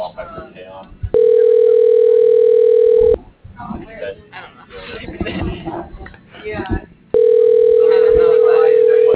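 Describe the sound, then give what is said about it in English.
A telephone line tone plays while a call is being dialed out. The steady, even tone sounds twice for about two seconds each time, with voices talking in between. “How are you dialing out? I think you're dialing out. Can you end that?”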